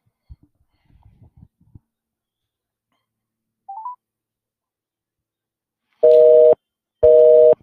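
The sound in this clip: A telephone busy signal sounds after a call goes unanswered: two short, steady beeps about a second apart, preceded by faint clicks and a brief higher tone.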